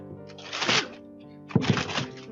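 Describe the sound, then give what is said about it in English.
Gift wrapping being ripped open by hand: two rough, papery bursts of tearing separated by a brief lull. “Yeah, rip that open.”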